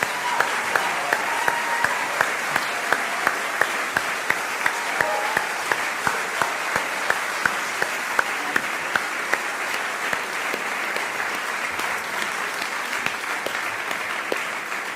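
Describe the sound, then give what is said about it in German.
Sustained applause from a church service audience, a dense, even wash of many hands clapping at steady loudness throughout, with a few sharper individual claps poking through and faint voices beneath. “Lass uns mal richtig feiern und Dankeschön sagen. Riesenapplaus, großes Kino, vielen, vielen Dank.”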